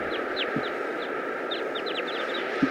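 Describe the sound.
Calls of a wild flock of birds, mostly males with some females: many short, high chirping calls, scattered and sometimes overlapping, over a steady background hiss, with a low thump near the end.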